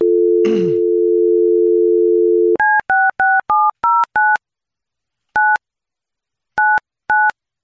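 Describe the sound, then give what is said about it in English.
Telephone dialing: a steady dial tone with a brief noise burst near its start, then ten short keypad tones, seven in a quick run followed by three more spaced apart, each clean and even in loudness. “Let me dial her up.”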